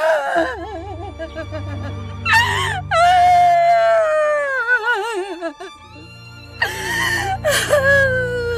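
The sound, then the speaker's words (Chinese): A distraught wife cries loudly, her wailing sobs rising and falling in long, quivering bursts broken by sharp gasps and whimpers, with no clear words spoken. “别哭了”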